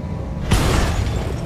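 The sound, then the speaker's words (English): A tank blowing up after a melee attack in a video game: a quiet start, then one sudden heavy boom, followed by a rough, sustained rumble that stays loud to the end. “Yeah, melee attacks sure seem to destroy tanks.”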